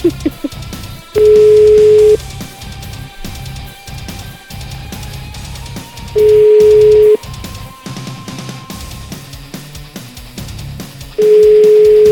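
A telephone ringback tone during a call: three steady one-second tones spaced about five seconds apart, each standing out clearly over a constant, busy background of other sound.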